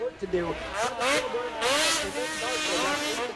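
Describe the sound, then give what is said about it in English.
Snowmobile engines at a snowmobile racing event in Michigan, a steady roar and whine of machines running continuously beneath talking throughout. “Snowmobile racing events like this one last weekend in Michigan are sanctioned.”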